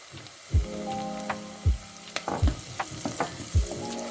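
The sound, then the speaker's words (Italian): Browned onion frying in a pan with turmeric added, a steady crackling sizzle broken by four dull low knocks as the mixture is stirred, with no talking. “nostra cipolla è imbiondita, è il momento di aggiungere il cucchiaino di curcuma.”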